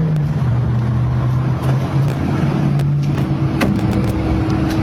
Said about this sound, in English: time for me to take my driverless ride to run my errand.